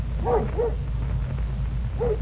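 Dog barking: three short, yelping barks, two close together and one after a pause, over a steady low rumble.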